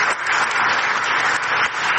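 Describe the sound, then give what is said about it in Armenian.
Applause at an international climate conference chaired by Azerbaijan's ecology minister, following a speech by a research centre head on behalf of poor countries; dense, even clapping that continues throughout. “Հետազոտական կենտրոնի ղեկավար նստեյության աղքատ երկրների անունից էր խոսում, ելույթը ծափահարություններով ուղեկցվեց։”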